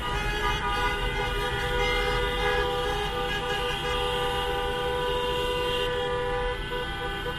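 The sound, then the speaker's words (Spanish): A convoy of taxis in A Coruña honks car horns in protest, with many overlapping horn blasts sounding almost continuously over engine and traffic noise throughout. “así sonaba la caravana de taxis que salió a las 10 de la mañana del parking del campo para hacer oír sus reivindicaciones. Su pancarta ha sido el embrague y su megáfono el claxon.”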